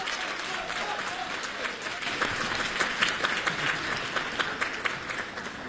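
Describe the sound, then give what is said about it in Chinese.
Audience applause at a 2018 Beijing stage comedy show welcomes two performers on stage. The clapping is dense and continuous, with a few louder crests in the middle. “我们掌声有请。 有请二位。”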